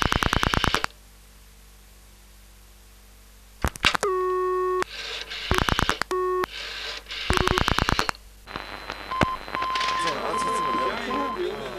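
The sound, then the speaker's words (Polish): A telephone dials a call to the radio switchboard. Bursts of rapid pulsing tone alternate with short stepped dialing beeps and silent gaps, then a steady electronic tone plays while voices talk underneath near the end. “Najpierw zadzwonię na rozdzielnię. Zobaczymy, czy mamy już gotowe łącza radiowe.”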